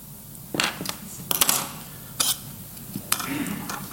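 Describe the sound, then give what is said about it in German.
A knife cuts into modelling clay and a circuit board is clamped in place, making a few sharp clicks and light clattering knocks at irregular intervals against quiet background noise. “Ich schneide mir da mal ein Stück ab und klemme die Platine ein bisschen fest, dann wackelt die nicht so.”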